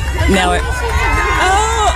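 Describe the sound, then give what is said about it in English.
Crowd voices cheer loudly for a rider mounting his own horse at a last-day-of-school event, with high excited shouts and overlapping chatter throughout. “Everybody's cheering for him.”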